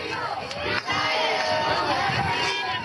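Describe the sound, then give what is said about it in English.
Supporters cheering outside the Supreme Court as people walk out: a loud, steady roar of mixed shouts and chatter with no pause. “In April, supporters cheered as Cecilia Wang walked out of the Supreme Court with her legal team.”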